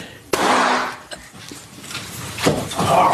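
Gunshot from a handgun accidentally fired while being adjusted in a pair of tight jeans: one sharp, abrupt crack near the start, followed by muffled noise and faint rustling.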